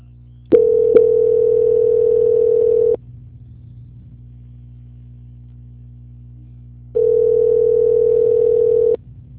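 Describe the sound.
A telephone tone plays while a call is being transferred. Two long, steady buzzing tones of the same pitch are separated by several seconds of near silence.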